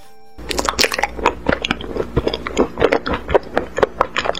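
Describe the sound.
Crunchy chewing of a small pomelo-scented pill: many crisp bites and wet, squishy mouth sounds in a quick, irregular rhythm, moderately loud, with no talking.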